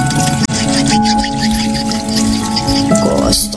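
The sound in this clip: Water and soap for handwashing: splashy drips and trickles under a voice that talks over them.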